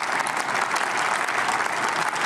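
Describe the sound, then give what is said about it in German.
Dense, steady applause from an audience at a speech, many hands clapping together as a continuous roar with no single claps standing out. “Warum erzählt er da irgendwie Märchen und die Leute klatschen auch noch?”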